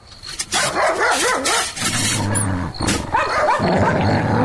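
A dog barks and growls at a door: rough, repeated bursts of barking run over a continuous low snarl, loud from start to finish.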